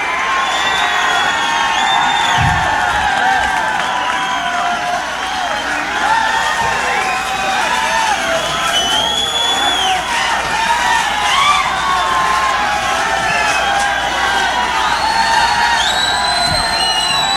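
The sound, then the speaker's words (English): A concert audience cheers for an encore with a dense, continuous wall of shouting, whoops and yells that stays loud and steady for the whole stretch. “This audience is not going to leave unless you guys do an encore.”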